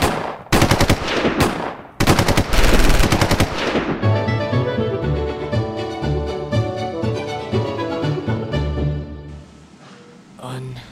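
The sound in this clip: Automatic gunfire in a shootout: several loud, rapid bursts of machine-gun fire that then give way to music.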